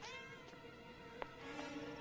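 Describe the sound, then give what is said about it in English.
A lost kitten meows in a sustained, harmonic cry that runs through the whole clip, steady and fairly loud, with no voices over it. “Look at the kitty. Oh, yeah, that's a good boy. It's just a poor little lost kitty.”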